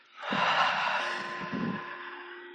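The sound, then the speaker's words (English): A deep, forceful breath during a guided breathing exercise, heard as one big airy rush that begins abruptly and slowly fades over about two seconds. No one talks. “We breathe in, and with a big release, one more time. We breathe in, and big one.”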